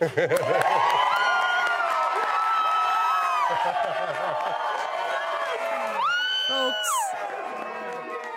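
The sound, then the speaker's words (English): Excited cheering and whooping from a group, including children's high shouts, as they hear that a former Brewers pitcher was elected to the Baseball Hall of Fame on the first ballot; loud, continuous and jubilant, with a voice speaking over it. “that is the sound of former Brewers pitcher CC Sabathia getting the news from the Baseball Writers Association that he, on the very first ballot, has been voted into the Baseball Hall of Fame for CC.”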